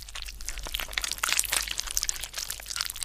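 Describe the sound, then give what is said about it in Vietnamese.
Crunching and chewing as a demon is eaten inside a cave, dense irregular crackles, snaps and crinkling crunches running continuously, fairly loud throughout. “Sau đó, ở bên trong hang động vang lên âm thanh nhai nhút, nghe đến rợn cả người.”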